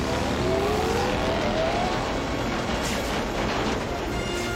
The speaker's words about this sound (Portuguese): Eu não estou ouvindo. Espera, deixa eu desligar o motor.